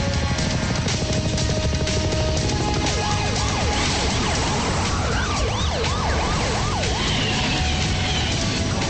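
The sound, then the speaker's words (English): Police car sirens blare during a chase. A steady tone gives way to rapid up-and-down wailing sweeps from several sirens that overlap, all loud above a constant roar of traffic noise. “The chopper and police cars chase them.”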